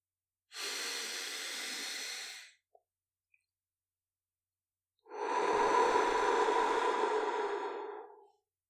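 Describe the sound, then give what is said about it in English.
A slow breath drawn in through the nose, then let out through the mouth during a guided relaxation exercise. A soft, airy inhale lasts about two seconds, followed after a pause by a longer, fuller, steadier exhale. “You might choose to take a big, slow breath in through your nose and out through your mouth and just feel what that feels like.”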